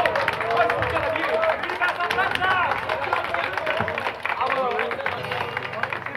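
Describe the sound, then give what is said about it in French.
Audience applause for a Mexican duo at a touring show, with dense clapping blended into lively crowd voices and calls that run continuously and loudly throughout. “Applaudissons-la, elle est facile.”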